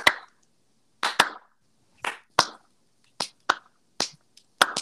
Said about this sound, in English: give Sam a little slow clap to send him out